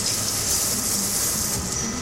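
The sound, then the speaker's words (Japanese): Hands are washed under running tap water at a sink in a kitchen. The water gives a steady, even hiss that is fairly loud and continuous throughout, with no pauses and no voices. “まずは手を洗うんですね。 そうですね。 洗いましょう洗いましょう。”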